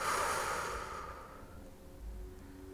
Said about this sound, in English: exhale, let it go, breathe in, breathe out.